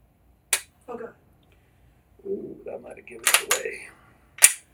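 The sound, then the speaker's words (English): Pistol dry fire on a double-stack handgun with ambidextrous slide release and no manual safety: two sharp, isolated trigger clicks with softer handling noises between them, in an otherwise quiet setting. “So let me dry fire this gun.”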